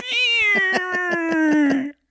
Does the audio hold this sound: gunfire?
no

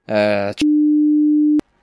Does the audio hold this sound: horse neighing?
no

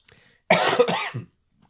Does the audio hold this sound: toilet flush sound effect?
no

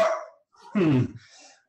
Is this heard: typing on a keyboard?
no

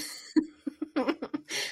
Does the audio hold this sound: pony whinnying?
no

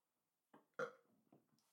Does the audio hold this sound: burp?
yes

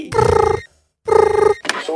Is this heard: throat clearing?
no

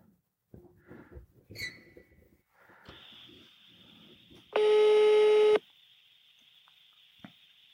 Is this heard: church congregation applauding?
no

